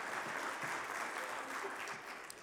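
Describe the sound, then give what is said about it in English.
An audience applauds to welcome a guest speaker, a dense, steady wash of clapping that holds at an even level throughout without pause. “So let's put our hands together. Welcome Greg Boone from Travelers Rest, South Carolina.”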